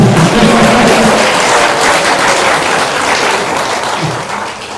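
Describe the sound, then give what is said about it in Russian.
Crowd applause for a man being honoured before an audience: loud, dense, continuous clapping that holds steady and eases slightly toward the end. “Давайте похлопаем ему.”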